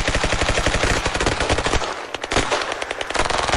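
Rapid automatic gunfire aimed at a shooting target in a shooting competition: many loud, sharp shots in fast bursts, with a brief lull near the middle.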